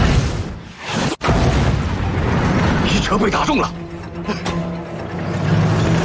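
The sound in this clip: Tank cannon fire and a shell hit in a video game, heard as one sharp, heavy blast early on, set within a dense, continuous rumble of battle noise.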